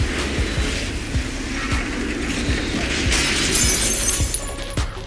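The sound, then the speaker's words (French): Glassy shattering of energy rays smashing through a thin defensive barrier: a sustained, broad crashing roar that holds for about five seconds, with bright, high glinting fragments near the end and no voices. “Les rayons firent voler en éclats la maigre barrière de défense du sergent-chef.”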